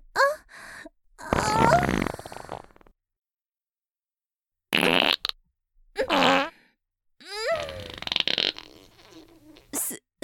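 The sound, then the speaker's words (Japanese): Loose, uncontrollable farting: several wet, buzzing bursts of uneven length, some with a rising or wavering tone, separated by stretches of silence, with one long drawn-out burst near the end. “臭いおならが止まらなくなってしまいましたわ。これはさすがに恥ずかしいです。”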